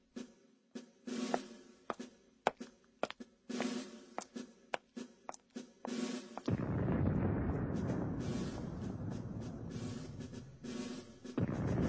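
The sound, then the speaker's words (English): Soldiers fire a gun salute in a dramatized reading of the close of Hamlet. A series of sharp, booming shots at irregular intervals gives way to a sustained, rumbling roar. “Go, bid the soldiers shoot.”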